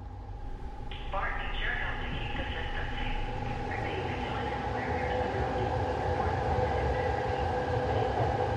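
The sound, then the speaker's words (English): A train car, almost completely empty, approaches a platform with a loud, continuous rumble. High, ringing squeals begin about a second in and persist, layered over the steady rolling noise. “One lone person jogs along train tracks, and a train car is almost completely empty as it approaches a platform.”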